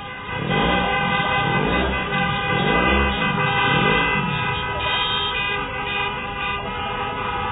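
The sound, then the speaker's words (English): Car horns honk continuously at a street protest for a free Iran in Los Angeles, several steady horn tones overlapping with the rumble of traffic and crowd voices. “I want you to hear the sounds of this protest. I'm going to play a little bit of the sound and then a couple of the interviews just to give you an idea of what that protest was like over 6 years ago in Los Angeles.”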